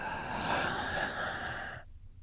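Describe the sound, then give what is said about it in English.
A deep breath taken as part of a breathing exercise: a sustained, breathy rush of air for nearly two seconds that stops abruptly, fairly quiet and heard alone. “And then number two, you're going to breathe deeply.”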